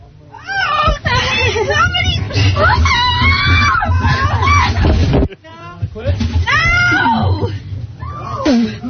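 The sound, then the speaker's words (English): A woman screams loudly during a stunt involving barrels filled with crickets: high, strained, sustained shrieks and wails with a brief break midway, then more screaming. “Hey, someone's screaming over there.”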